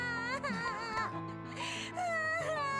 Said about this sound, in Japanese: どうして彼女はずっと泣いたままなのですか？